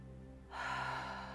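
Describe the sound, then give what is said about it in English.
A single deep, airy breath during a guided breathing exercise, a soft rush that begins after a short quiet pause and holds steady, faint over a low constant hum. “Exhale. Inhale in. And exhale. Inhale.”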